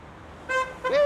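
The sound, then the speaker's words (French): Car horn honking at a street protest in Calais, two bright blasts, a short one and then a longer, louder one, over a low background murmur. “Allez, un klaxon.”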